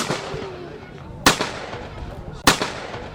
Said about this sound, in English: It was really hard to try to aim at it. You didn't know where it was going to go, left and right and all around. And it was really heavy on your shoulders, so when you shot it, it blew you a little backwards.